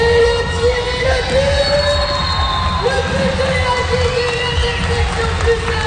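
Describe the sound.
Loud, continuous crowd ambience at a school soccer tournament, with children shouting and cheering without pause.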